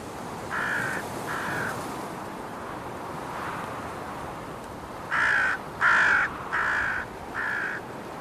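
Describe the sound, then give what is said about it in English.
Harsh caws from crows mobbing an eagle: two calls close together, a quiet gap, then four louder caws in a steady rhythm, all over a soft windy hiss. “Mobbing usually starts with one or two individuals.”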